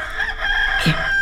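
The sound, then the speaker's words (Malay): A rooster crows in one sustained, high, drawn-out call that holds a steady strained tone. “Ayam berkokok, mak.”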